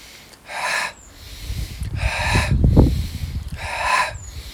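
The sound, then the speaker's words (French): Nasal breathing in an alternate-nostril yoga exercise, drawing air in through one side and blowing out through the other: a few airy, hissing breaths, some sharp and snort-like, with a rougher, lower-toned rush in the middle and no voices. “Sans bloquer la respiration, va maintenant inspirer d'un côté et souffler de l'autre.”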